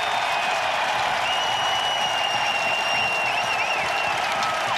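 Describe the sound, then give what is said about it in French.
A hockey crowd's sustained ovation for Jonathan Toews on his return to Chicago: continuous loud clapping and crowd roar, with long high whistles riding over it. “Je termine mon petit tour hockey avec toi, Pascal, pour te faire écouter quelque chose de bien plus beau. C'est une ovation.”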